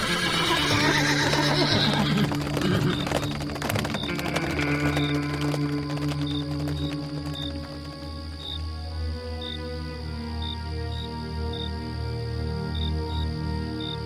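Horses neigh loudly over rumbling hoofbeats as they pull a wagon at speed, the noisy burst strongest at the start, then easing into a steady rumble with evenly spaced insect chirps running through the rest.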